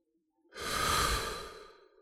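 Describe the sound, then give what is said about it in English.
A single deep breath: a long, airy rush of air that swells quickly after a short silence, then slowly fades, heard alone with no talk. “close your eyes, take a deep breath in through the nose,”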